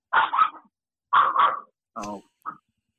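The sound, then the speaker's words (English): A pet dog barks at home in a few short, sharp bursts separated by brief pauses, some barks coming in quick pairs and the last one very brief, with no talking. “my dog, sorry. Being remote, you're going to hear my dog.”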